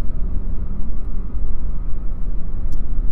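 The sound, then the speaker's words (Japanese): Trucks on a mountain pass road make a loud, steady, low rumble that fills the whole clip without easing off. “この峠ね、トラックばっかり。うわ、トラックばっかり。”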